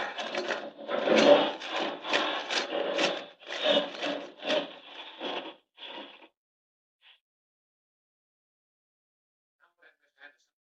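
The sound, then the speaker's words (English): Grinding, rasping drilling effect for Superman boring straight through solid rock toward a mine gallery in a radio drama, made of many rhythmic gritty pulses that stop abruptly, followed by a few faint scattered sounds. “No time to find the entrance. I'll just drive straight to it through the solid rock. Here goes.”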